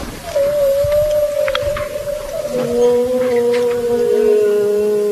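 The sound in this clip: Whale song picked up by a hydrophone from a research boat at sea: a long, sustained tonal moan that drifts slightly lower, joined partway through by a steadier lower tone, loud and unbroken with no talk.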